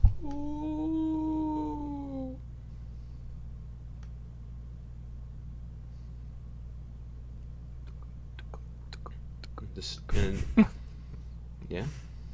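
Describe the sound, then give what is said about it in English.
A person imitates a wolf howl with one sustained, tonal howl lasting about two seconds that dips slightly at its end, followed by a quiet low hum and a short noisy burst near the close. “In the distance you hear a wolf howl. Just, oh! And then sort of a reciprocation of that howl, maybe a couple miles to your left.”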